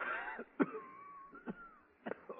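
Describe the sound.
Coughing and throat clearing: a few short, rough bursts spaced irregularly, separated by quieter stretches, with no clear speech.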